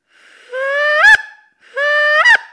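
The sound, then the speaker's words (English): A human voice imitates a goose honk twice, each a long, nasal, buzzy call that ends in a sharp upward break, with a short pause between the two. “that's pretty much how you get that honk down. And so bear with me, guys. This is going to sound amazing, I know. So I'll try to demonstrate and see if I can get you guys to laugh out there.”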